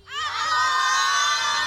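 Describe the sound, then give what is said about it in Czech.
Children at a school cheering and screaming together, a high-pitched, shrill chorus that swells within a fraction of a second and then holds loud and steady to the end. “Tady je spousta dětí, kteří se teď na nás koukají, který nám fandí.”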